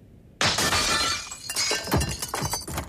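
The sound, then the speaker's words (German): Window glass is smashed in with one sudden loud crash, followed by a busy scatter of tinkling shards that clatter and settle over the next few seconds. “Krieg keinen Schreck. Ich schlage jetzt das Fenster ein.”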